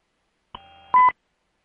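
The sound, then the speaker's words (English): A beep on a telephone line: a quieter steady tone runs briefly, then a short, louder beep follows and cuts off cleanly, with nothing else around it. “I think we got a beep there.”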